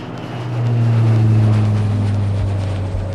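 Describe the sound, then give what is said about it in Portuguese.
Small jet taking off: a deep, steady engine drone swells up within the first half second, then holds loud and even, with a faint higher whine above the low roar. “Então aperte os cintos, deixe seu assento na posição vertical, verifique se a mesinha da frente está devidamente presa e aperte os cintos, pois esse jatinho vai decolar!”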